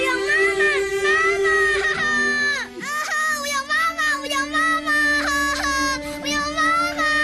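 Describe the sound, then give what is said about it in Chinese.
A little boy cries, his high wavering wails and sobs running loud and almost continuously in broken bursts. “小伟乖，不哭了啊，不哭了。”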